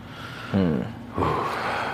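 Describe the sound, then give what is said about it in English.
A man's deep, audible intake of breath, heard as two loud breathy bursts with short pauses around them. “He took a deep breath on that one.”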